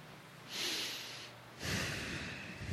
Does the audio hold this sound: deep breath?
yes